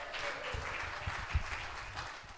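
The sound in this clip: Applause from a church audience at New City Church in Edgerton, greeting a guest speaker: a steady, fairly faint patter of many hands clapping throughout, with a few slightly louder claps near the middle.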